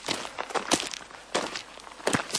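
Footsteps climbing uphill over grassy mountain terrain on an autumn hike, several soft, crunching steps in an uneven rhythm, heard alone.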